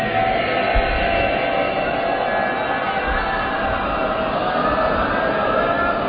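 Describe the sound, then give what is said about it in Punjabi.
A Sikh audience shouts a jaikara together, a loud, massed roar of many voices. It holds steady and dense for several seconds without a break. “ਤੇ ਮੇਰਾ ਮਨ ਕਹਿੰਦਾ ਵੀ ਇਹ ਮਾਣ ਸਾਰੇ ਮਿਲ ਕੇ ਕਰ ਲਵੋ, ਇੱਕ ਵਾਰੀ ਵੱਡਾ ਜੈਕਾਰਾ ਬੁਲਾਓ ਸਾਰੇ।”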